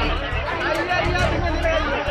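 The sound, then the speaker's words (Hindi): A crowd chants the Hindu slogan "Jai Shri Ram", a dense, steady roar of many voices at a constant loudness with no clear pauses. “ये जय श्री राम का नारा है, जय घोष है”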